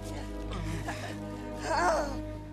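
A person's pained cry, louder than a groan and close to a scream, rising in strain near the end over a steady low hum.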